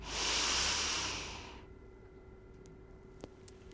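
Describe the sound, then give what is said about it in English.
A slow exhale of breath, a soft, broad hiss that swells and then fades over about a second and a half, followed by near silence with one faint tick. “You reconstruct and exhale. One last time.”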